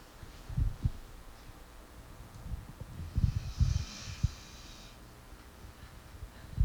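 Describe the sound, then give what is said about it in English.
A dog snores with slow, low, rumbling breaths and a few soft snorts that rise and fade in a faint, uneven rhythm. “That's our dog snoring. I think it's cute. You want to hear it?”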